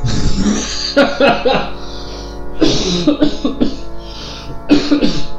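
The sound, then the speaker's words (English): Throat clearing and coughing to shift phlegm, a string of rough, harsh bursts that repeat across the stretch with little pause between them. “I had a little bit of phlegm back there, and that really helped clear it.”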